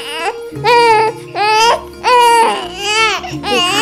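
A sick baby girl crying loudly in several drawn-out, wavering wails with brief gaps between them. The cries are high-pitched and strained, with a quivering, sobbing quality throughout.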